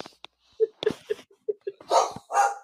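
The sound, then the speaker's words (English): A dog barks in a quick, irregular series of loud, sharp barks. The last few barks are longer and rougher. “Sorry about my dog. No, it's all right. Your dog is in commentary.”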